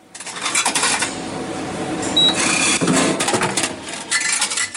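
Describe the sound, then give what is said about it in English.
A vending machine runs with busy mechanical clicking, whirring and rattling, a continuous clatter of moving parts that rises and falls in intensity. “Is it a vending machine? It's a vending machine.”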